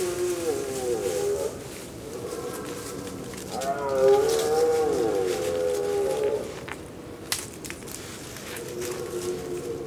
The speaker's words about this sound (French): on réalise qu'il ne s'agit pas d'un cerf, mais d'une famille de sangliers, puisqu'on entend, on entend grogner